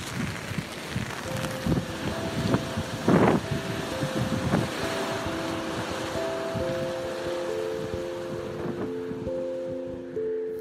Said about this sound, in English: I just kind of walk around a block and try to clear my head. And today it's a little windy and rainy, but this is the sound of that.